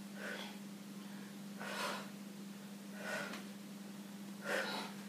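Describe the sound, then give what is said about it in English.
Four soft exhaled breaths, one on each turn of a spinal twisting exercise, come at a roughly even pace. They are faint, airy puffs over a steady low hum. “make sure you let out a little breath on every turn”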